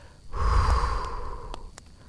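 A slow exhale, a soft, breathy rush of air lasting over a second that gradually fades, with a few faint clicks in the background.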